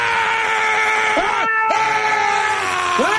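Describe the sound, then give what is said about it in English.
A man screams and rages in a loud, strained, sustained yell with a raw, harmonic-rich tone, broken by one short pause partway through. “internets need to see me and you side by side, screaming and raging at the globalists, man.”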